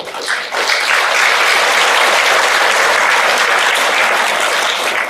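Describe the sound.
An audience applauds at a Buddhist dharma talk given by a monk. Loud, dense clapping swells after a brief quieter start and then holds evenly to the end.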